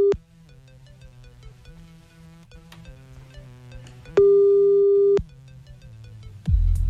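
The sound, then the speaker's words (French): Ringback tone of an outgoing telephone call: one full steady, mid-pitched beep lasting about a second, plus the tail of an earlier one at the start, over faint background music. “on appelle Taï, bouge pas, c'est parti”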